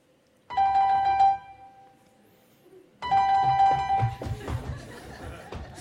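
A telephone rings twice in steady tonal bursts for a call to a young childminder. The second ring runs into busy, muffled noise.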